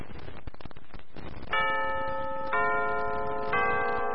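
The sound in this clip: A radio time signal marks 8 pm: rapid clock ticks come first, then three steady electronic beeps exactly one second apart, each a bright, clear tone held until the next.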